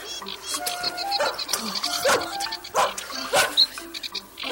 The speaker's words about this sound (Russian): Ух ты, какая собака большая.